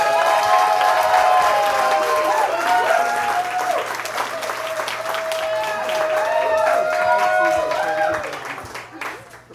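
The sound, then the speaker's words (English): Audience applause greets a singer walking on stage at a first-gig storytelling show, with loud, thick clapping and voices raised over it, holding for several seconds before thinning out toward the end. “Guys, let's give a big, warm welcome”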